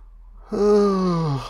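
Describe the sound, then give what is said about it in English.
A person yawns aloud: a drawn-out, breathy, voiced sound lasting about a second, its pitch sliding gradually downward before it trails off. “I'm not yawning because I'm bored.”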